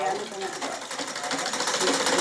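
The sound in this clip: Sewing machine stitching brocade garments, a steady, continuous mechanical whirr with dense, rapid needle chatter that holds an even level throughout.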